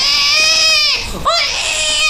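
A hungry baby crying loudly: a sustained, wavering wail, then a brief catch of breath and a second strained cry that carries on to the end.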